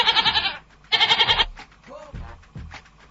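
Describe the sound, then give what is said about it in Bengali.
A goat bleats twice, each call loud and quavering with a fast, pulsing wobble, separated by a short pause, followed by quieter, low, muffled sounds. “আমাদের এখানে কয়েকটা ছাগল আছে”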